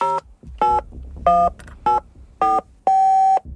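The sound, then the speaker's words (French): Keypad tones of a number being dialed on a smartphone: six separate electronic beeps at uneven intervals, the last one held noticeably longer than the rest. “Le visage grave, ce peintre plastique de 33 ans, compose fébrilement le 17 sur son smartphone.”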